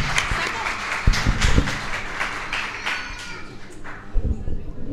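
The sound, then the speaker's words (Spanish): Audience applause for fellow performers: clapping with a few sharp claps standing out, mixed with crowd voices and noise, holding at a fairly steady level throughout. “Fuerte, fuerte el aplauso para los compañeros.”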